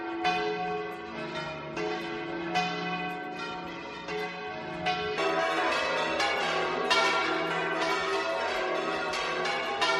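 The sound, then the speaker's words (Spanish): Church bells peal at noon on Easter from cathedrals across Spain, many bells ringing at once in a dense, steady, loud wash of overlapping strikes. The ringing continues throughout with no voices. “A las 12 del mediodía repicaban las campanas de todos los templos en España.”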